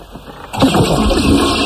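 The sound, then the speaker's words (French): A toilet flush: after a brief, quieter opening, a sudden loud rush of water starts and continues as a steady, broad hissing roar to the end. “Enfin, je tire la chasse, je ne comprends pas.”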